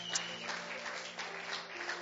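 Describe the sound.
Church audience applauding as a guest is welcomed to the stage during a Sunday morning service; a faint, steady patter of clapping runs without a break.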